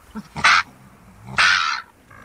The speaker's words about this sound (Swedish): Det här måste vara mårdhunden